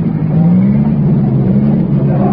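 Vintage racing cars, including a six-cylinder supercharged car, speed past on a race track in a loud, continuous engine roar. The droning note lifts slightly early on and then holds steady to the end.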